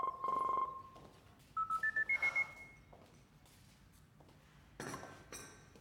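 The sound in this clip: Telephone redial: a long electronic beep, then six quick dialing tones climbing in pitch step by step, and later a short noisy burst. No one speaks.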